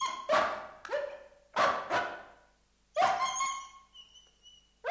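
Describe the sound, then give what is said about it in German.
A dog gives a few sharp, loud barks or yelps in quick bursts, and the last one trails into a longer, drawn-out whining tone that fades away. “Warum heult der Hund?”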